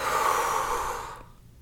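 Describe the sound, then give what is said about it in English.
A long, deep breath breathed out during a guided breathing exercise: a steady, airy rush that holds for about a second, then fades to quiet. “Take a deep inhale. Exhale, let it go.”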